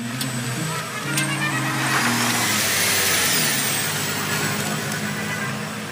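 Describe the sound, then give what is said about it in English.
Vehicle engine and tyre noise from a plug-in hybrid Jeep Wrangler pulling away, a steady low drone that swells slightly early on and holds, with a faint high whine above it. “That was Biden peeling out, sort of, in a plug-in hybrid Jeep Wrangler”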